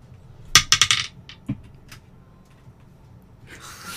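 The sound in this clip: Dice clatter onto a surface in a quick burst of sharp clicks, followed by a couple of isolated taps as they settle. No one talks.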